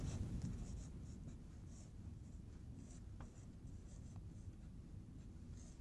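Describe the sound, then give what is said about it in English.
Quiet, steady scratching and rubbing of writing as someone works through a physics problem on acceleration and forces, continuous and faint, with no talk. “I was going to write that.”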